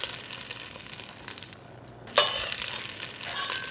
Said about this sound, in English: I've been browning some onion halves in this pan.